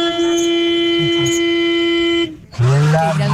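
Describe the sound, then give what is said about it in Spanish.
A long, loud car horn blares as one steady, unbroken tone for about two seconds, then cuts off and a voice starts speaking. “Es un pito que suena fuerte, un pito oiga largo. Este pito.”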